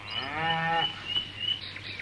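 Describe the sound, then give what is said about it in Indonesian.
Cattle mooing: one drawn-out, harmonic cow moo lasting under a second, followed by fainter, rougher lowing sounds that trail off. “Ternyata sapi-sapi yang mereka cari berada tak jauh dari tempat mereka akan beristirahat.”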